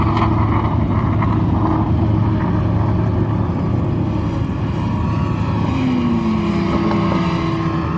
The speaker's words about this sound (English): And that last sound, that's the number one Porsche 919 hybrid.